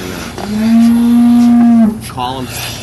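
A cow out on a farm pasture lets out one long, loud, low moo that holds a steady pitch for over a second before breaking off.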